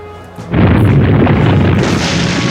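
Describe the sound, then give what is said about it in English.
Earthquake attack effect from a monster-battling video game: a sudden heavy boom breaks in after a quiet moment, then swells into a loud, sustained rumbling roar, with a brighter hiss joining near the end. “Choose a move. Quake. Earth. Physical. Dragalith used Quake.”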